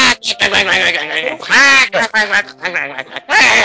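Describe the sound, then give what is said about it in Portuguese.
A voice imitates a duck quacking, like a cartoon duck on a television talent show, with a loud series of nasal, buzzy quacks broken by short pauses. “entrava um pato na televisão, fazendo...”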